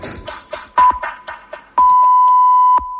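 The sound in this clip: Radio hourly time signal: a brief high pip, then a single long, steady beep held for about a second. A run of sharp percussive bursts comes before it.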